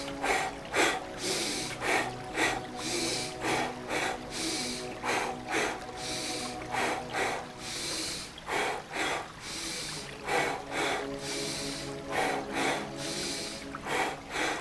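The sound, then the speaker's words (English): Breath practice with single nasal inhales and double mouth exhales, heard as many breathy hissing bursts in a steady rhythm over soft, sustained background music. “Exhale mouth this time. It's gonna be a single inhale, double exhale. Begin with me.”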